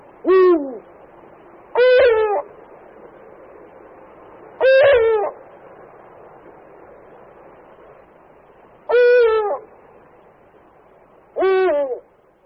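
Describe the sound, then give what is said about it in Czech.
Male and female eagle owls hoot in a duet, the male's hoots deeper than the female's. There are five loud, separate harmonic hoots, each with a falling tail, spaced a few seconds apart over quiet background. “Slyšeli jsme společné, takzvané duetové volání samce a samice, kdy houkání samce bylo zřetelně hlubší než hlas samice.”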